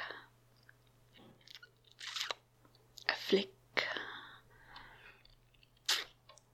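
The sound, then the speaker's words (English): Wet licking sounds from a tongue, a handful of short, soft slurping bursts separated by near silence, quiet and close. “Then let me take a taste. A lick.”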